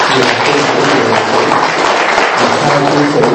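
An audience at a Buddhist monastery gathering applauds a musician. The loud clapping is thick and continuous and stays at an even level throughout.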